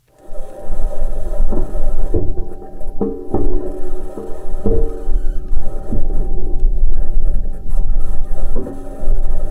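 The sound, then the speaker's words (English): A Mars rover drives across the Martian landscape, giving a continuous grinding, rattling mechanical rumble with a heavy low-end drone and several sharp knocks and clanks scattered through it, loud and steady throughout. “Here's the sound of Perseverance persevering, driving around the Martian landscape.”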